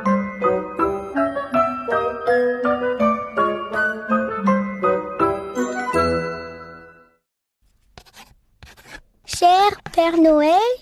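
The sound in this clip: Pen scratching on paper as a child writes a Christmas list in French: brief scratchy strokes after a tinkling, piano-like melody, followed by a child's voice.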